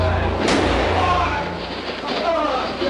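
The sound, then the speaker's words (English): A single gunshot cracks in the basement of Dallas Police Headquarters as Lee Harvey Oswald is shot, one sharp loud burst early on amid a dense roar of shouting voices and commotion. “He's been shot. Lee Oswald has been shot. There's the man with a gun. Absolute panic here in the basement of Dallas Police Headquarters.”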